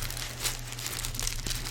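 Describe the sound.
Paper sheets crinkle and rustle as they are cut and handled, a steady, moderately quiet crackling texture with a few sharper crisp accents over a faint low hum.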